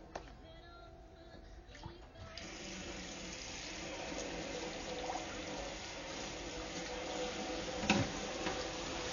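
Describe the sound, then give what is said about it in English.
Water runs into a sink as a dirty pan that was soaked overnight is washed and scrubbed, giving continuous splashing and rushing water with scattered scraping and clinks, and one sharper knock near the end. “Now, the pan you want to use is not clean, so first, I'm going to have to clean it. So I'm going to do that now. Why don't you listen?”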